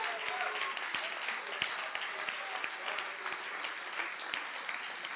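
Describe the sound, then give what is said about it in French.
A church audience applauds to acclaim Jesus for a couple, with a steady wash of clapping and crisp, regularly spaced louder claps, while voices carry on underneath. “On va ensemble acclamer le nom de Jésus pour ce précieux couple.”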